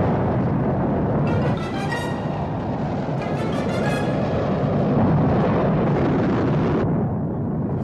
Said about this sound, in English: 6, 5, 4, 3, 2, 1, fire rocket.